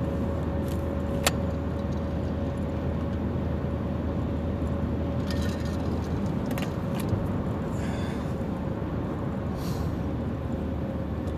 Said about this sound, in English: On the road right now, drive between Omaha, Nebraska and Lincoln, Nebraska. It's a fun drive.